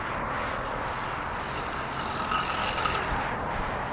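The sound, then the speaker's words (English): A gas-powered motorized bicycle passes by. Its small engine makes a rattling buzz over steady road noise, growing briefly louder midway and then easing off. “The gas-powered bicycle seems to be cheating. Kind of like those Razor scooters with the motor.”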